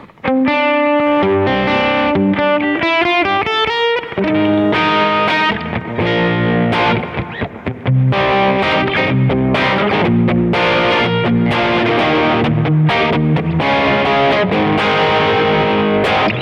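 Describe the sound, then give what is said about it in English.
An electric guitar plays through a light to medium gain overdrive pedal with every knob at noon, rising single notes giving way to loud, saturated, sustained chords. “this is actually like a light to medium gain drive. So I'm going to put everything at noon. And we're going to crank this on, and this is what I get”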